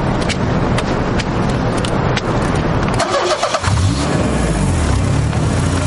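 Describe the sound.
A car engine starts up and runs as the car sets off, a steady mechanical rumble that shifts in tone about halfway through.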